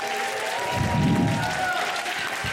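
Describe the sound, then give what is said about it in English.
Audience at a stand-up comedy show cheering and applauding when asked to make noise, a steady, dense wash of clapping and shouts that swells briefly in the middle, with a few whistles running through it. “Who in the house that's over 40 or 45? Make some noise over 45.”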